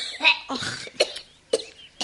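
An elderly woman coughs in several sharp, raspy bursts separated by short pauses.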